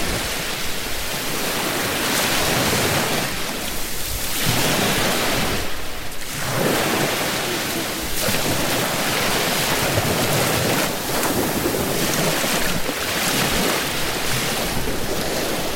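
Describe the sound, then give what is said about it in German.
Sea waves wash onto a Spanish beach early in the morning while the sea is fairly calm, giving a steady, full hiss of surf that swells and eases gently throughout, with no voices. “Es ist noch sehr früh und ganz wenig Leute hier. Das Meer ist noch gar nicht so wild, aber ich hoffe, man hat es deutlich genug gehört.”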